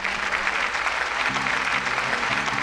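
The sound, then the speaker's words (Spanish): A canned applause sound effect plays as a steady, dense burst of crowd clapping at a constant level, with faint musical tones sounding underneath from about halfway through. “están los aplausos. Llegan con delay, pero sí, está.”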